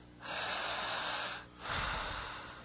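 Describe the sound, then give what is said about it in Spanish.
Forceful breathing from a person under hypnosis: two long, loud, hissing breaths, the first lasting about a second, the second following after a brief pause and tapering off. “Jale el aire persona quien quiere ser hipnotizada de verdad necesita generar esta sobreoxigenación del torrente sanguíneo, es decir, respirar con esa fuerza.”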